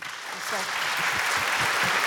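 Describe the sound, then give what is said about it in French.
Audience applause welcoming a guest who has just joined, a dense, steady patter of clapping that holds evenly for the whole stretch, with voices audible underneath. “Et on peut l'applaudir, s'il vous plaît.”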